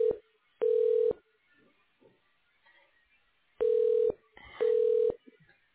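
Electronic telephone tones as a call is transferred, three steady half-second beeps at a single mid pitch plus a clipped tone at the start, separated by stretches of quiet line noise.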